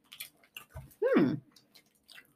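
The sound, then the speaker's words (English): Soft, quiet chewing of a blueberry Airhead taffy candy, with faint mouth clicks and one louder, brief murmur in the middle. “Well, I'm trying blueberry. Uh-huh. I'm gonna eat this blueberry Airhead. So it should taste like the way it smells.”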